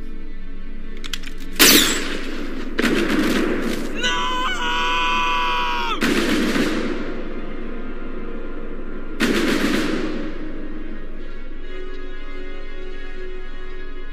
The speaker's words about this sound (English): Is he dead? That tends to happen when you shoot someone in the head.